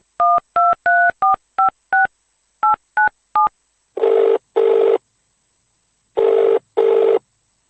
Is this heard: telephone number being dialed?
yes